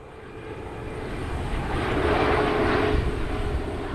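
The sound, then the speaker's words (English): An airplane flies over an old football field beneath a landing path for Toronto's International Airport, its engine roar swelling steadily to a broad peak and then easing off slightly. “And met them at the old football field. It sits under the path to a landing strip for Toronto's International Airport.”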